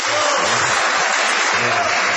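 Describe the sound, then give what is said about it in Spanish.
Loud audience applause requested from a crowd of residents of San Nicolás de los Arroyos, a thick, continuous roar of clapping that stays at full strength from start to finish. “A ver, nicoleños, un aplauso.”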